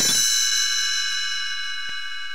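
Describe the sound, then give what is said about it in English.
A small bell rings once as a page-turn signal for a read-along story, its bright, clear chime sounding alone and slowly fading as it rings out. “You will know it is time to turn the page when Tinkerbell rings her little bells like this.”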